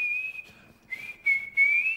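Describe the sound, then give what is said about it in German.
Someone whistles a vendor truck's melody: a clear, high tone in a few connected phrases that hold mostly level pitch, with a small dip midway and a slight rise at the end, heard alone. “Jedenfalls kommt so eine Pfeifenmelodie und dann... Boah, du hast gerade so richtig hässlich gepfiffen”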